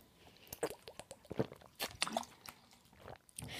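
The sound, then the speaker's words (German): Mouth sounds of someone taking a sip of a drink: a handful of small wet clicks, smacks and gulps, quiet and scattered, with no talking. “Ich trinke nochmal einen Schluck und dann geht's gleich los mit dem ersten positiven.”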